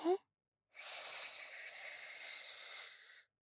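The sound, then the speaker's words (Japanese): A long, deep breath drawn in during a guided relaxation before sleep. It is a steady, airy inhale lasting about two and a half seconds, preceded by a brief vocal sound. “ほらほら深呼吸して吸って”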